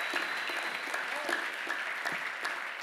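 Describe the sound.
A church audience at Pacific Baptist Church in Long Beach applauds a welcomed pastor, with dense, steady clapping from many hands at an even moderate level throughout.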